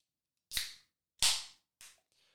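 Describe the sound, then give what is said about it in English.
A Silver Bullet beer can being opened, with no talk: three sharp cracking pops, each trailing a short fizzing hiss, followed by a faint lingering fizz. “I'm gonna go quiet for about 10 seconds and open this silver bullet.”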